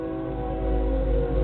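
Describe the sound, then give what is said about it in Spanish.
A train passing by makes a loud, steady low rumble with a dense droning hum that swells slightly midway and holds, with no voices. “Por aquí está pasando el tren.”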